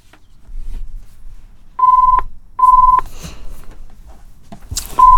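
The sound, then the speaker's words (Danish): A telephone rings with short, even electronic beeps at a steady pitch, repeated a few times with brief silences between them. “Da ringer det. Skal vi høre her.”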